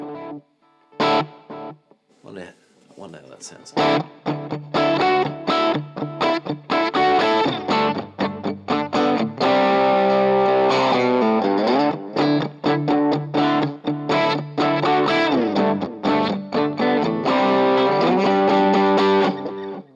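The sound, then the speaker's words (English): An electric guitar plays through a Kemper amp profile of a 3rd Power amplifier with a delay effect. Distorted chords and single notes ring out with echoing repeats trailing behind, and a man speaks briefly. “let's stick the delay on. There's a delay there.”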